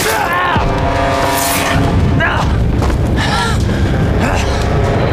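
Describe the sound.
An artillery shell explodes on a firing position, setting off a loud, sustained low roar that fills the whole clip while shouting voices break through over the rumble.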